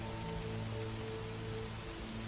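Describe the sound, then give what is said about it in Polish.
Light drizzling rain makes a steady, even hiss that runs unbroken through the whole stretch, with a low, constant hum beneath it and no voices. “Deszcz siąpi, moczy was całkowicie.”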